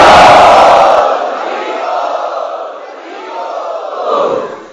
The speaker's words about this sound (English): And so let us welcome them by loudly chanting Hari Bol.